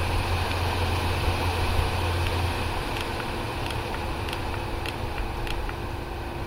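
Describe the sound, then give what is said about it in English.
A quiet electric fan motor on its low speed setting gives a soft, steady whir with a faint hum, and a deeper tone drops away partway through. “It actually sounds the same. So. Yeah, it sounds the same. It's the same motor speed. So if you have this down on, we'll bring it down on low.”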